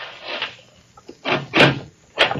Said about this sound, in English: Open the door.